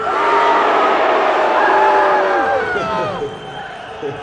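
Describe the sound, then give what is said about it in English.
A crowd at a political rally cheers and boos at once in reaction to a candidate's name, a dense, loud mass of shouting voices that holds steady and then fades over the final second or so. “I think there's some yays mixed with the boos.”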